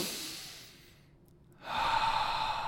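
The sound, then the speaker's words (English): A deep breath in a guided breathing exercise: a slow, airy inhale fades into a short pause, then a fuller, louder breath out lasts to the end. “A little fuller now, big breath in and let it go.”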